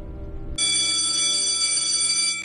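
A mobile phone rings with a bright, sustained electronic tone that starts abruptly after a short low rumble and holds steadily for about two seconds before cutting off.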